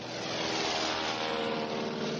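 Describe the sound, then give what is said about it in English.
Steady, loud drone of a small plane's engine as it descends slowly near stalling speed, skimming about six feet above the water before touchdown. The broad roar holds even and continuous throughout. “As he skimmed little more than 6 feet above the surface, the plane stopped shuddering and rolling.”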